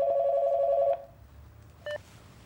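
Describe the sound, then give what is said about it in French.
A telephone rings in a florist's shop with one steady ring lasting about a second. After a short quiet, a single brief electronic beep follows. “Il entre dans la boutique au moment même où la fleuriste décroche son téléphone.”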